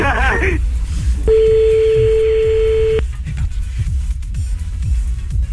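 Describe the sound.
A call being placed on a telephone line: a single steady, medium-pitched tone holds for under two seconds, with brief voices and background noise around it.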